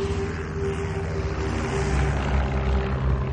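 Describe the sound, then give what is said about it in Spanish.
A propeller airplane drones steadily as it lands at Lae, New Guinea. The engine roar is loud, constant and low, with a deep humming tone and no voices. “el 1 de julio, Amelia aterriza en Lae, Nueva Guinea.”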